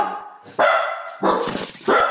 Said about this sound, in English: There's dogs, too.